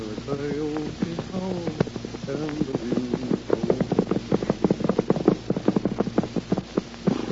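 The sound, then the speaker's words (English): Horse hooves of a lone horseman riding at night in lonely foothills. After a brief tonal sound at the start, a steady clip-clop of many hoofbeats grows louder and more distinct in an even walking rhythm. “It is night. In the lonely foothills on the edge of the Circle E, a lone horseman is riding.”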